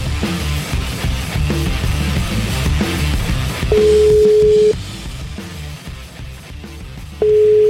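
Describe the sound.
Telephone ringback tones play while a call is placed. Two steady mid-pitched beeps, each about a second long, come a few seconds apart over loud rhythmic background music.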